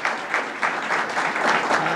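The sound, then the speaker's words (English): An audience applauding at a public speaking event, dense steady clapping from many hands that stays fairly loud throughout. “Let's give another round of applause to John King, our Chancellor.”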